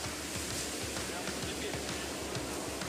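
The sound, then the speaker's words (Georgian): Large ocean waves break at a surfing beach, a continuous, steady rushing wash of surf with no pauses throughout. “აქ რაღაც ძალიან დიდი ტალღებია. არა, ნორმალურია, მაგრამ ძალიან დიდია.”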